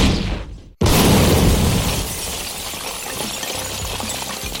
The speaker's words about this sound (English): But you know what isn't empty? What? The rocket launcher I walked in with.